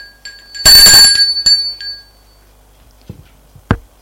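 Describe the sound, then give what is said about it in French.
A doorbell rings a second time. It gives a bright, metallic chime with a loud ringing burst that fades slowly, then a short second strike and a few faint thuds. “Il n'a pas envie d'aller ouvrir. On sonne une deuxième fois.”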